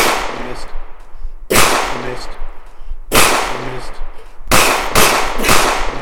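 Gunshots from a video game gun: several loud, sharp cracks, each followed by a decaying burst of noise, with the last shots coming in quicker succession.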